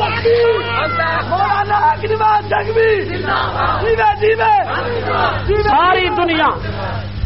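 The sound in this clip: Crowd chanting Allahu Akbar in response to the Naara-e-Takbeer call at an Urdu religious gathering, many voices shouting together in loud repeated bursts that rise and fall, with a hubbub of people beneath.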